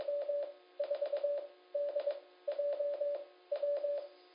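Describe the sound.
Morse code spells out an amateur radio call sign with a Farnsworth spacing factor of 5. The steady mid-pitched tone sounds in quick dits and dahs, grouped into five letters separated by clear gaps.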